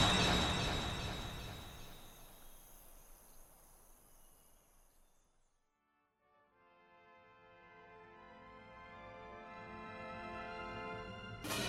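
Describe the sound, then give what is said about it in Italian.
A jewel-topped tower collapses and shatters into shards in a broad, crashing rush. The noise is loud at first, then thins and slowly fades away to near silence. “La cima, tempestata di gioielli, mandò un ultimo barbiglio e poi si abbatté in mille schegge lucenti.”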